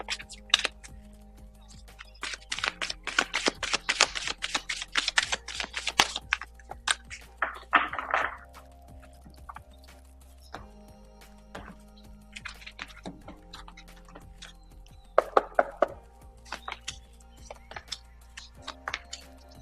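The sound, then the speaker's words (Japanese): Cards are shuffled for a card reading: bursts of rapid, crisp flicking and clicking come in uneven clusters separated by quiet pauses. “今日のカードリーディングの方をしていきましょう。カードシャッフルしますので、少々お待ちください。”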